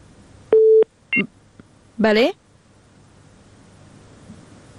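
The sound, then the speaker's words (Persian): A phone-line tone after a radio phone-in caller's call is cut off: a short steady beep, then a brief second blip, followed by a quick snatch of a voice over a faint hiss. “بله تماسشون قطع شد.”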